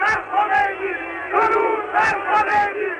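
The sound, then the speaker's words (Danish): A large crowd welcomes Ayatollah Khomeini at Tehran airport in 1979, chanting and shouting together in loud, rhythmic bursts of massed voices. “Irans ayatollah Khomeini vendte hjem fra eksil i Frankrig i 1979. Her bydes han velkommen i Teherans lufthavn.”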